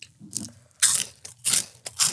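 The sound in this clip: Crunching a spicy corn chip snack: several loud, crisp, brittle crunches come in quick succession between quieter chewing, with no talking.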